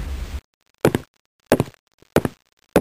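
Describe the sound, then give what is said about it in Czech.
Knocking on a little cottage door in a children's fairy tale: four sharp, evenly spaced knocks with silence between them. “Jeskyňky klepaly”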